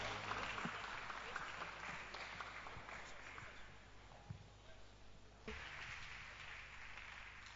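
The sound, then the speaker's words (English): Applause from a church audience on Resurrection Sunday, a steady, even wash of clapping that runs through the whole clip at a fairly low level. “Put your hands together and let's welcome our sister to give us a song.”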